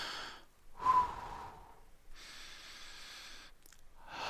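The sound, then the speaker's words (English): A deep breath, heard as two long, soft breathy rushes of air separated by a short pause, with no talking. “Sometimes you just got to take a deep breath.”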